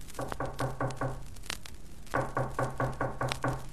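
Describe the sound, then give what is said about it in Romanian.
Knocking on a door in a village folk tale: two runs of rapid, firm knocks separated by a short pause, each run a quick series of even raps. “Cine bate?”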